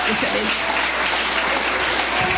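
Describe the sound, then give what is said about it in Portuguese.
A church audience claps to welcome a woman to the altar during a worship service. The clapping is a dense, steady wash with no breaks, and a voice speaks over it. “Vamos receber a serva de Deus com palmas e glória para louvar o nome do Senhor.”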